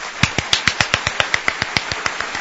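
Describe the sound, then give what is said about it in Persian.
One person claps hands for Yasaman, many sharp, crisp claps at a quick, even pace, alone without talk. “بذار من یه دست مرتب برای یاسمن بزنم.”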